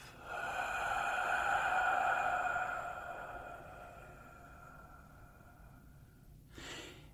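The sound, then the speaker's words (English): A long, steady breath blown out for a few seconds and slowly fading over a soft sustained tone, followed by a short breathy burst near the end. “And you notice that I'm blowing my breath into this ball of energy.”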